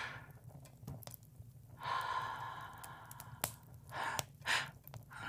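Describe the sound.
Soft, warm breaths blown close to the microphone: a few airy, sighing exhales that swell and fade, quiet and intimate, with faint breathy rustle between them.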